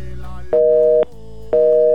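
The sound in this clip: Telephone busy tone after the other party hangs up: loud, steady electronic beeps, each about half a second long with an equal gap between them. One full beep is followed by a second that runs to the end, over a low hum.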